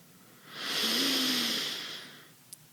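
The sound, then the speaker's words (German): A single long breath drawn in through the nose: a steady airy hiss that swells and then fades over about two seconds, heard alone. “Atme durch die Nase ein”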